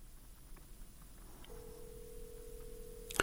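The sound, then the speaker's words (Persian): A telephone line tone while a call is being connected: a faint, steady mid-pitched tone sets in partway through and holds unchanged over soft hiss, ending with a brief click. “کوشش میکنیم تماس ما برقرار شود با آقای هاشمی.”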